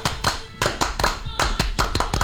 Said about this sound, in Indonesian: Salam Pramuka. Salam. Tepuk Pramuka.